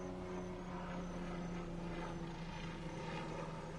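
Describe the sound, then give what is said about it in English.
A helicopter flying overhead makes a steady, loud rotor drone with low humming tones that hold level throughout, with no talk. “Sorry for the helicopter above us.”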